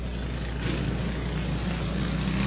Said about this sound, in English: Go-karts. Dirt track and go-karts. Here in the McLean County Expo Center.